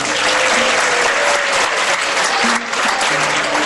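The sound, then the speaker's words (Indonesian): Steady applause from an audience, a dense, even wash of clapping hands that holds loud throughout, with a faint voice briefly audible beneath. “Tepuk tangan nggak apa-apa.”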